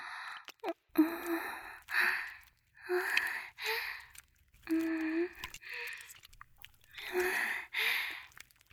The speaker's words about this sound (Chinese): 你的呼吸好重啊。